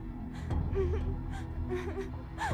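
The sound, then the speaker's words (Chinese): A woman cries softly, giving faint whimpering sobs and gasping breaths in a few breathy bursts, quiet and low throughout. “嗯，是妈咪在哭吗？妈咪怎么了？发生什么事了吗？”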